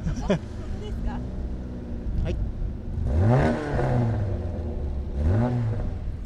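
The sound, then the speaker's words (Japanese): An older car engine with a 9500 rpm redline idles and then revs, rising in two loud, sweeping bursts over a steady rumble, with people talking around it. “ちょっとエンジンかけてみましょう か。かけていただきたいですね。 音もすごいんですよ、はい、近所迷惑にならない程度の心地よい音ですからね”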